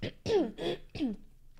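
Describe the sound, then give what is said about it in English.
A person coughs in a lingering coughing fit, giving several harsh, voiced bursts in quick succession. The coughs are fairly soft and are followed by quiet. “I'll have to edit that out. You realize every cough. I had a coughing fit before we started, and it's still lingering.”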